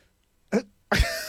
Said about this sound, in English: Let me clear my bubble throat here for a second.